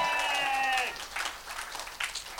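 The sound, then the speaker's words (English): Audience applause from a live crowd swells after a held, voice-like tone at the opening, turning into dense, noisy clapping that lasts to the end. “for this I would like a round of applause. Please.”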